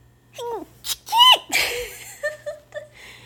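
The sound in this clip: Allergy sneezing from one person: a few high, squeaky voiced gasps build into a loud, sharp sneeze burst, followed by softer breathy sounds and short squeaks.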